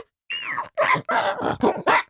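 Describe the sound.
A human voice imitates a dog, giving a few short, loud barks and growls in quick succession, alone with no talk around them.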